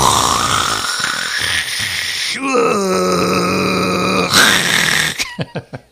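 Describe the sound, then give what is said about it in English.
A human voice imitates the weird noises of a Keurig coffee machine. Low groaning, gurgling tones give way to a steady droning hum, then a few short, sharp popping bursts. “I like my Keurig machine at home. I switched from bun to Keurig and not looking back. Even though it makes weird noises like”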